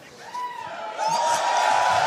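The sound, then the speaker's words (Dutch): Crowd cheering and whooping at a CDA party gathering on Dutch national election night. A broad wash of massed voices swells noticeably about a second in, then holds loud and sustained to the end. “Juich maar even.”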